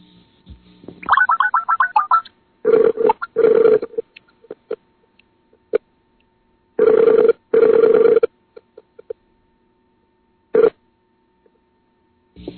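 Telephone call being dialed and ringing, placed over an internet link into a studio booth: a quick warbling burst of dialing tones, then two double rings separated by silence, with scattered faint clicks and one short tone near the end.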